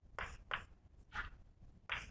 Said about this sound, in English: And let me just write exactly what I'm calculating here.